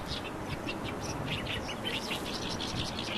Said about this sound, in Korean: 지금 들리는 소리가 가깝게 이렇게 들리는 소리가 개개비라는 소리입니다.